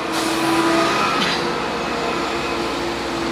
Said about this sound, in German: Der macht jetzt schon noch eine Kurve. Die Maschine fährt am Rand des Feldes, dort hin, wo es schon einen Haufen hat, mit Zuckerrüben mehrere Meter hoch.